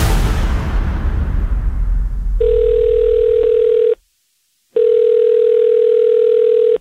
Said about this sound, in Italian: chiamalo subito. Chiama Mazzoli. Subito.